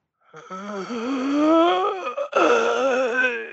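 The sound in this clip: A human voice imitates a corpse groaning: a long, low, drawn-out moan that swells and wavers. After a brief break it continues as a second strained, groaning wail.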